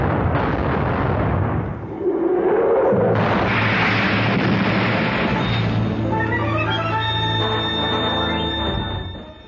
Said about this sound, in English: Open fire, first division! Second division!